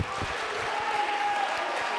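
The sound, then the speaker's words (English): Congregation applause during a church service: a dense, continuous wash of clapping hands holds at an even level, with a faint sustained tone running through it. “Clap your hands, lift your voice.”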